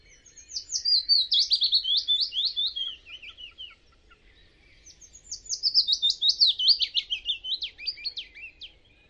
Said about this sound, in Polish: Tu macie głos typowy dla piecuszka.